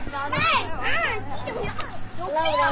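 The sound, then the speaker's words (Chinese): Children playing at a large inflatable play area in a park: high, lively voices squealing and chattering loudly over one another in bright, bouncing bursts. “这个有一个大型的这种气垫的儿童的游乐的一个区域， 又在这儿 听到孩子们的欢声笑语。”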